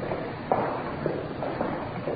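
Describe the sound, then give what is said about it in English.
Footsteps climbing the stairs to the main reception of the General Hospital in Los Angeles, a few soft, evenly spaced footfalls over a low background hum. “Up the stairs now to a main reception.”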